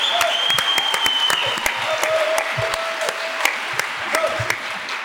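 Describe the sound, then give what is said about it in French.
Audience applause at a real estate industry conference, greeting the founder of a property agency network: steady, dense clapping throughout, with a voice speaking over it. “Dis donc, mon Stéphane, ça fait plaisir d'être applaudi pour ça.”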